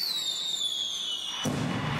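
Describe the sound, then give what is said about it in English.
Fireworks at an evening celebration of America's 250th birthday in a city park: a high whistle slides slowly downward, then a broad rushing burst cuts in and carries on to the end. “Tonight's the night. The Faber Area Fireworks Committee is celebrating America's 250th birthday at dark between 9:30 and 10 tonight in the Faber City Park”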